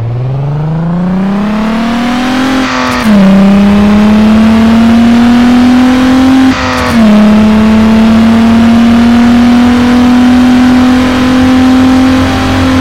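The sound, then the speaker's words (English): Toyota Supra engine in stock package from a video game, a loud, sustained engine tone held at high revs, dipping sharply twice as gears change, its pitch climbing slowly after each shift. “Sound of engine, Toyota Supra, Need for Speed Underground, stock package.”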